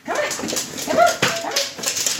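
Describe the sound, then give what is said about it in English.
Whining and whimpering from a hungry three-year-old yellow Labrador retriever awaiting a bowl of kibble at supper time in a California home: a few thin, high whines and short yips over a faint noisy background. “And hungrily awaiting a bowl of kibble is Lisa, a 3-year-old yellow Labrador retriever.”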